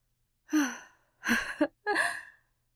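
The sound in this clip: Heavy panting from a person out of breath after running fast: three loud, breathy gasping pulls of air in steady succession, each with a slightly voiced edge, and no talking.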